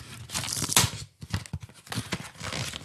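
Cardboard gift packaging is torn open with rough ripping and crinkling. A series of scratchy bursts breaks briefly near the middle, then the tearing continues in choppy strokes.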